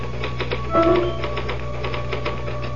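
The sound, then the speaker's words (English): Typewriter keys clack in a radio drama scene, a quick, uneven run of many keystrokes over a steady low hum. “Can I use the typewriter for a moment? I just got to put one thought down before I forget it.”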